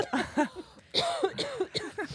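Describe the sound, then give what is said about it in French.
A woman coughs and sputters as if choking, in a rapid run of short, voiced, throaty coughs. “Je m'étouffe. Attendez.”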